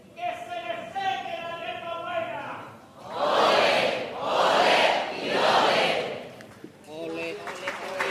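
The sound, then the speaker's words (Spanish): Audience cheering a chirigota group at a carnival contest quarterfinal: loud crowd roars rise and fall in three broad swells, with voices talking before and after. “Recibiendo también los ánimos de este público que ha conectado evidentemente con la chirigota también en este pase de cuartos.”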